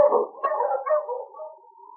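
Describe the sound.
A sled dog team on a snowy trail gives a single drawn-out, wavering howl that holds a steady pitch and fades over about two seconds.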